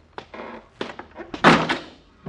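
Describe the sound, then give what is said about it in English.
A basement door with an unfixed latch slams shut in a loud thud, preceded by a few lighter knocks and rattles. “McGee, the door, the latch. You didn't fix it. We're locked in here.”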